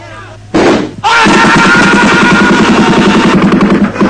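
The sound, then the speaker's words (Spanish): Gunfire from a firing-squad execution opens with a loud burst. A dense, rapid volley of rhythmic shots follows and carries on steadily to the end. “Y ahora van a fusilarlos a todos. ¡Fuego! ¿Por qué se nos está castigando? ¡Fuego, carajo!”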